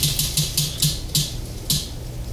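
Clicking from a game wheel spun to pick a trivia question: about seven sharp ticks, each with a soft low thump, coming quickly at first and then spacing out as the wheel slows.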